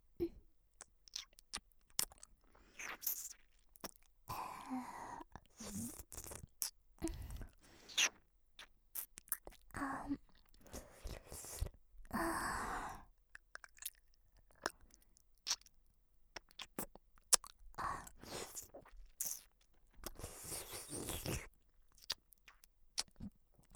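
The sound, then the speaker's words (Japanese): Wet mouth chewing and nibbling sounds in ASMR style, imitating eating ears; many soft, irregular smacks, clicks and crunchy bursts, quiet and close. “君のお耳を久しぶりに食べるね。やっぱり君のお耳とっても美味しい。”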